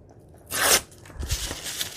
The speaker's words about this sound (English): And then get my tearing ruler, tear the bottoms off,